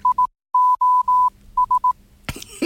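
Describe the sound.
An SOS call in Morse code in a steady mid-pitched tone: three short beeps, three long beeps, then three short beeps, followed by a brief noisy burst.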